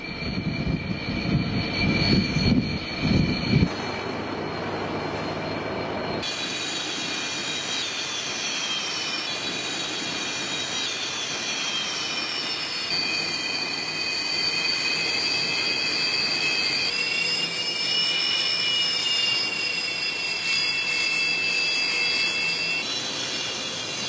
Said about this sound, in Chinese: 习近平查看了辽宁舰歼十五飞机起飞训练情况